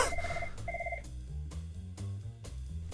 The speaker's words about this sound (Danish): Hvordan kan telefonen helt seriøst ringe herinde i studiet?